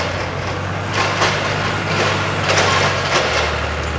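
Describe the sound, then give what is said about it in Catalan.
A forklift is driven through a warehouse, its engine giving a steady low hum with rougher, noisy surges rising and falling over it. “En un magatzem, el Pol fa anar un toro.”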